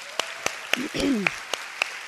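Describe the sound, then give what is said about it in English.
Crisp, evenly spaced hand claps ring out as a round of applause at an evening gathering, in a steady rhythm rather than a dense roar, with a brief voice sounding underneath midway. “I think it would be really fun to do a round of applause for Danny and all of the girls who made this look beautiful tonight.”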